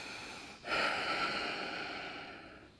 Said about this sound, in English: You take a deep breath in, exhale every breath,